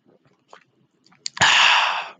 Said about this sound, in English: I'm going to drink some root beer first. Let's see if I can, like, get really close to the microphone, see if we can ASMR this.